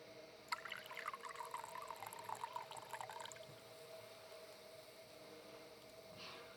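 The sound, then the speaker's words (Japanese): Hot water trickles from a ladle, drawn from a tea kettle, into a tea bowl during a tea ceremony. A faint, soft, steady pour lasts about three seconds before fading into near silence. “では、柄杓を使って、茶釜からお湯を茶碗に注ぎます。”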